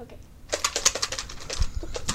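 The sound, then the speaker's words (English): Paper name slips rattle as they are shaken in a cup for a prize draw, a brisk, fast clatter of many light taps. “So can you shake up our little cup here with everybody's name? Come closer so that people can see you. Okay. Shake it up really good.”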